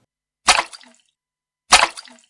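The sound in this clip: Water from a tub is flung from a ladle onto a person in two separate splashes, each a sharp burst of spray that trails off quickly, with silence between them.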